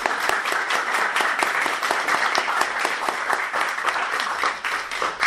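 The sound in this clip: Steady applause from an audience at the close of a gathering where hanging scrolls are on display, dense and continuous for several seconds with even loudness and no voices.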